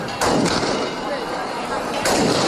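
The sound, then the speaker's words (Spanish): Shotgun salute volleys fired during a religious procession through village streets, a few sharp bursts standing out of a dense, loud crowd noise with cheers and clapping. “Continúa la Virgen del Rocío vestida de pastora recorriendo las calles de la aldea almonteña entre vivas, palmas y salvas de escopeta.”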